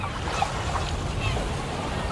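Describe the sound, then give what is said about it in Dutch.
Waves at a waterside by the sea make a steady broad wash of hissing, rushing noise without clear breaks. A faint call or two rises briefly above it. “U zal wel zeggen, hij staat aan het water. Hij staat bij de zee. Nou, een beetje wel, ja.”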